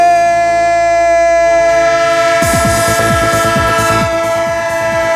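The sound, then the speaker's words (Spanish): Train sound effect: a loud, sustained chord-like horn held throughout, joined partway through by fast, rhythmic clattering of wheels on rails. “Radio Estadio, el tren de Onda Cero, el tren de la competición.”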